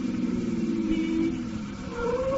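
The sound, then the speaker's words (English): A car engine runs steadily with a continuous mid-pitched hum and road rumble, holding at a fairly even level throughout. “Driver, slow down. We'll walk from the corner.”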